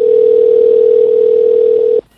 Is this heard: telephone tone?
yes